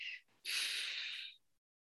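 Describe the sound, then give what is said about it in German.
A deep, audible exhale during a breathing relaxation exercise: a brief breathy puff, then a loud, steady airy rush lasting about a second that cuts off into silence. “und beim nächsten Ausatmen atme ich tief hinunter. Das darf man auch hören.”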